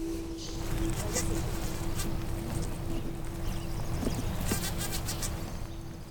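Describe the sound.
A bee buzzes near hives at an orchard in the Northwest during pollination, a steady, thin hum held for several seconds over a continuous wash of outdoor background noise.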